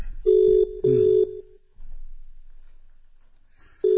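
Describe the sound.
Ringback tone of an outgoing telephone call: two short, steady, mid-pitched beeps in quick succession, a long silence, then the next ring starting again.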